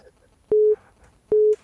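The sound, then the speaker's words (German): Two short, identical electronic beeps announce an incoming call during an ongoing phone conversation. Each steady mid-pitched tone lasts about a quarter second, and the pair is separated by a gap of roughly half a second, with little else audible. “oh, der Benny ruft an, der Stifler, eine Sekunde gerade.”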